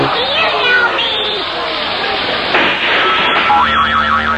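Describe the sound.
Cartoonish game show whammy sound effect playing after a spin, with springy, wobbling boing-like tones and a warbling sweep over crowd noise and excited voices.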